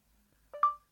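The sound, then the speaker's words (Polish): A mobile phone's voice-dictation prompt beep, a brief electronic two-note signal with a short lower tone followed by a longer, higher, clear tone that fades away, heard alone with no talking. “Proszę dyktować tekst po usłyszeniu sygnału.”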